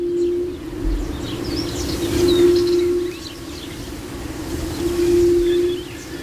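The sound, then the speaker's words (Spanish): Soft, low hooting calls of an Andalusian buttonquail (torillo), a female calling: three drawn-out, steady moaning notes separated by pauses, with faint chirps of other birds in the background. “Y ese sonido muy suave, pero que se escucha así como en lejanía, y sin embargo tienes a la hembra cantando al lado. O sea, es muy, muy curioso. Y ah, por eso se le llama torillo a este ave. Vamos a escucharlo.”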